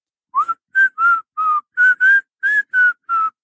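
A person imitates someone whistling along to music in a quiet train carriage, giving nine short, clear whistled notes at a fairly steady pitch, alone without talk.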